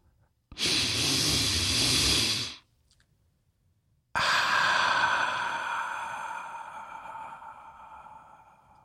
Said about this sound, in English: let's take a deep breath.